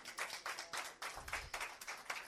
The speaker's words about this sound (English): Clap your hands and praise the Lord.